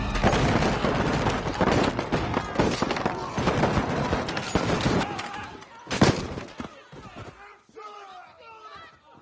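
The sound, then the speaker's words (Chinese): Gunfire in a battle ambush where faulty homemade bullets blow up back on the shooters: dense, loud bursts of shots and explosions with shouting voices. A single sharp blast stands out near the end before the firing thins into scattered cries. “因技术原因，尤金造来打向敌人的子弹全部都炸向了自己。”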